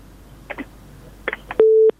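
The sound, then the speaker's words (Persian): Telephone tone after a call is cut off: a few brief clicks, then a single steady mid-pitched beep lasting about a third of a second before silence. “د تماس قطع شوې ده”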